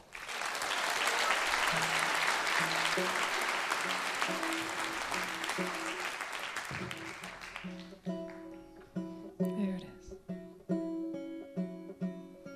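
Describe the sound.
Strong audience applause welcomes a singer making her first appearance at Mountain Stage, a live music show. A dense, sustained burst of clapping lasts about seven seconds, then fades away as soft guitar music begins.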